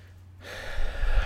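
A deep breath is drawn in during a calming tapping exercise: near silence gives way to a long, airy inhale that swells steadily louder.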